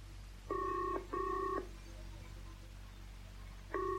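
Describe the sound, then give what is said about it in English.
An incoming call rings a telephone in a double-ring pattern: two steady tonal rings, a pause, then another ring starting, faint over a low background hum. “There's a call coming through now, sir. Right. Switch it through the loudspeaker.”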